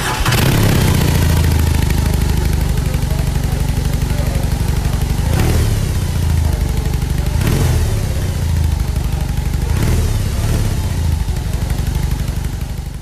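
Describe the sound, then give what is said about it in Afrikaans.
Large-engine R18 motorcycle running: a loud, steady, low-pitched engine rumble throughout, with three short revs or throttle blips standing out from the continuous idle. “Hulle het klaar bestellings ook, maar luister gou hoe klink hierdie R18, en dan hoor jy nou of jy saamstem.”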